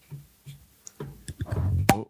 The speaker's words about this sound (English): I'll distract you by opening a beer.